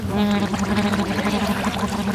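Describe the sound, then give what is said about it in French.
Bubbling, gurgling water as someone puts their nose under the water and blows out. The churning is continuous, with a steady buzzing tone running throughout. “Ah, c'est angoissant. De mettre le nez sous l'eau.”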